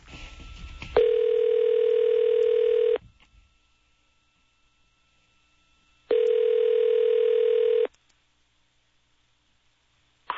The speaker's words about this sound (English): have the engineer dial up my home answering machine, and we're going to have you listen to the answering machine